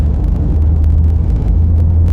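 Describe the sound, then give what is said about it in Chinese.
Car engine rumble while a passenger is driven to a sick teacher's home: a steady, loud, low drone with continuous road noise and no clear change in pitch or speed, and no talk. “开车先把我送到吴老师那儿。”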